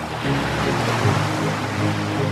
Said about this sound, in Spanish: Amazonas, río, mar.